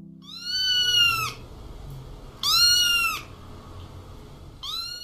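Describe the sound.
A cat meows three times, each a clear, high, drawn-out cry with a steady pitch. The first two are separated by a long pause, and the third is cut off at the end over a low background hum.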